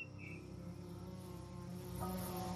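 Mosquitoes swarming to attack make a faint, steady, high whining drone with layered tones that holds level throughout.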